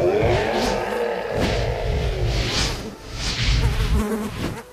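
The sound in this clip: Swarming flies buzz in a video game as they attack the player who enters a boss's area, a steady, dense insect drone that swells and ebbs throughout without any talk.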